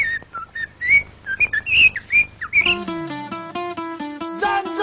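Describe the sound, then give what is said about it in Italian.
Someone whistles an imitation of a male blackbird's woodland mating song: a run of short, fluting phrases that swoop up and down in pitch. Partway through, a bright music jingle cuts in and takes over. “Il canto del merlo maschio nel folto del bosco, il suo richiamo d'amore.”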